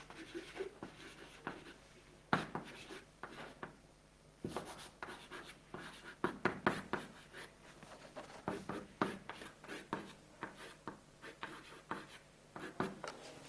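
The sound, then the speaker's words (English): Writing on a board: many short, dry, scratchy strokes come in irregular bursts with brief pauses, crisp and fairly loud against a quiet background. “I could just write P is a normal form.”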